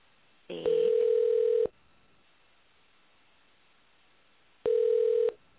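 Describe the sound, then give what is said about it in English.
Telephone tones while dialing a hotel line: two steady electronic beeps, each about a second long, separated by a long silent gap. “We'll dial up.”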